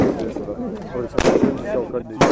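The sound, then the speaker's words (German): Gunshots from Kurdish Peshmerga fighters lying prone on a shooting range near Erbil, firing at a target: a few sharp, loud cracks breaking through a man's continuous talk. “Drei kurdische Kämpfer liegen auf dem Boden und schießen dreimal auf eine ihnen zugewiesene Zielscheibe.”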